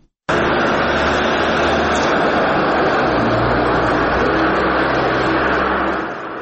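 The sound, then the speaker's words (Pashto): Loud, continuous engine roar of a car in Garmsir district, starting abruptly and holding steady throughout with a deep rumbling hum underneath, easing slightly at the very end. “د الیاس تایی ریپورټ اورو چې د موټر په غږ پیلېږي”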